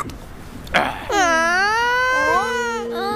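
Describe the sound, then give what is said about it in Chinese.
A voice imitating a young crocodile crying: sustained, wavering, childlike wails with a steady tone that follow a short burst of sound, loud and continuous to the end. “小鳄别哭， 别听阿克的。”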